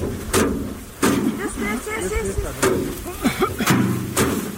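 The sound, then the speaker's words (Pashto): Farmers in Kandahar's Dand district beat harvested basil to knock it free of the plants, giving a few heavy, spaced thuds while a voice talks over them throughout. “د کندهار په ډنډ ولسوالۍ کې کروندګر خپل راټول سوي د ریحانو حاصلات ټکوي تر څو ریحان له بوټو جلا کړي.”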